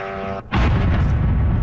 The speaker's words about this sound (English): That is one drone hitting an apartment building in Kyiv.